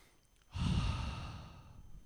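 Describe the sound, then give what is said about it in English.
A loud ujjayi breath, a long audible exhale pushed from the back of the throat, rises suddenly and then slowly fades over more than a second, breathy and rushing, with no talking over it. “It's that loud exhale kind of coming from the back of the throat.”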